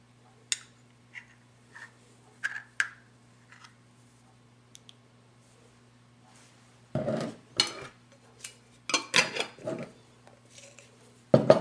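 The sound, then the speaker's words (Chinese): Spoon clinks and scrapes as about three teaspoons of jam are stirred into a mixture in a bowl: scattered light taps early on, then a denser run of louder knocks and scrapes, with no talk. “跟住咧就撈勻佢”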